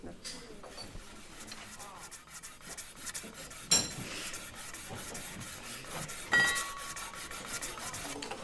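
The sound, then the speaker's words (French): Rasping of a metal file worked over a scrap metal piece in a metal workshop, a run of rough scraping strokes broken by a couple of sharper, louder clanks. “Attends, parce que faut pas que je lime n'importe quoi.”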